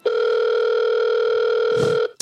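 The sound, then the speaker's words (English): A telephone line tone as a prank call is dialed: one long, steady, buzzy mid-pitched tone that holds evenly and then cuts off abruptly, with a brief soft noise just before it ends. “Okay, so let's dial.”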